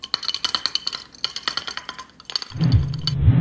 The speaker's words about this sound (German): Ich denke mal, jetzt kann ich mir ganz entspannt ein Bier aufmachen.